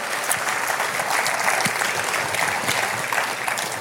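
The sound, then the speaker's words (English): An audience claps and applauds in dense, steady applause at moderate loudness. It holds an even level throughout the few seconds. “we want to dismiss you as we clap and celebrate you and love you”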